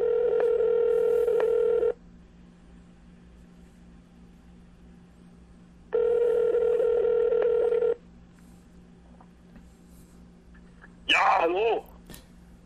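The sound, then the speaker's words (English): Phone ringing on speakerphone during an outgoing call: two long electronic ring tones a few seconds apart over faint line hiss, then a short burst of voice on the line. “Got to put it on speakerphone. All right, let's hear. Oh, there it goes. There it goes.”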